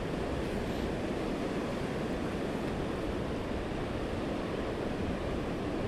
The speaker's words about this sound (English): It's quite overcast, but the wind's blowing at a lick.